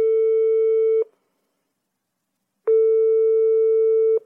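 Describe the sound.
A telephone ringback tone plays while a caller phones a sister at four in the morning: two long, steady, mid-pitched beeps separated by silence, loud and clean with no voices.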